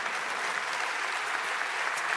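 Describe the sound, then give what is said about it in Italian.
Audience applause for a professor after his presentation: dense, even clapping holds at a constant level from start to finish. “Io ringrazio ancora, un bel applauso per il professor Giuliano Noci.”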